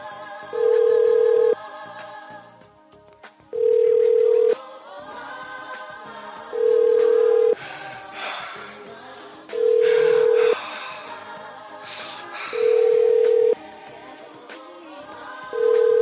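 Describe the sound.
Telephone ringback tones as a call goes through: a steady mid-pitched tone lasting about a second, repeating at even intervals five times, with a sixth starting at the very end.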